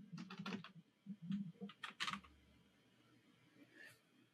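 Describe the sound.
Typing on a computer keyboard: quick bursts of many clicking keystrokes across the first two seconds, then quieter, sparser tapping with a brief last flurry near the end. No one speaks.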